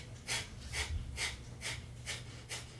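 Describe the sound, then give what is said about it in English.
Rapid nasal breathing during a breathing exercise, each forceful exhale pushed out by pumping the stomach in. Six soft, airy puffs come in a quick, even rhythm, with no talk. “what you're going to do is rapidly in and out through your nose, you're going to pump your stomach in and exhale at the same time.”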